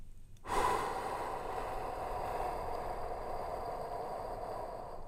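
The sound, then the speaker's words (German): Slow breathing during a relaxed breathing exercise paced at four seconds in and six seconds out. A steady, continuous breathy airflow starts abruptly and holds for several seconds at a moderate level, with no talk. “4 Sekunden einatmen. Ich habe eine Uhr vor mir. Also. Ja. Und 6 Sekunden ausatmen.”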